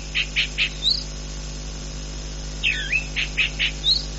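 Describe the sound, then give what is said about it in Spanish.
A calandria sings in two short phrases of bright, high chirps, each of a few quick notes, separated by a pause of about two seconds over a faint, steady background. “Canta la calandria, nos recibe cada día”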